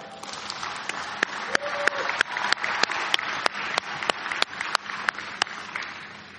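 Audience applause fills the space as a dense, steady wash of many hands. Many sharp individual claps stand out above it at fairly regular intervals.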